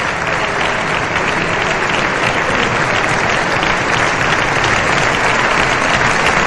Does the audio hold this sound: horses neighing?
no

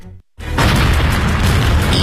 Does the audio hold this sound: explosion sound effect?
yes

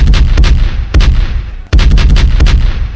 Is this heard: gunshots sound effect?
yes

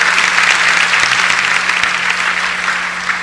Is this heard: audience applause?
yes

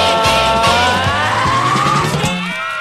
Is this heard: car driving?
yes

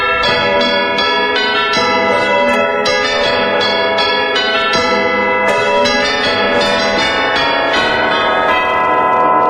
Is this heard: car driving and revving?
no

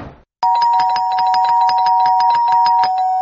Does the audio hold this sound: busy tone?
no

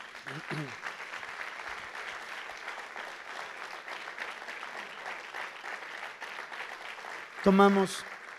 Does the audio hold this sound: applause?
yes

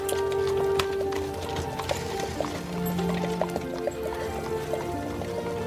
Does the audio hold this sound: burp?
no

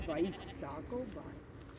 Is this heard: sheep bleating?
yes

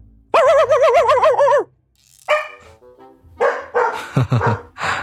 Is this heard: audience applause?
no

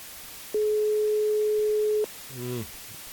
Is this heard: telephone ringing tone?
yes

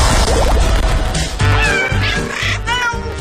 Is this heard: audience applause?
no

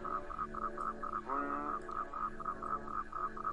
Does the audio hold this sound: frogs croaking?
yes

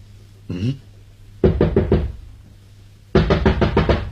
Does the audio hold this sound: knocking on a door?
yes

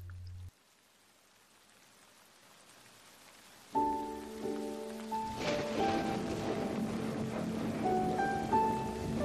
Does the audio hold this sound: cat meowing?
no

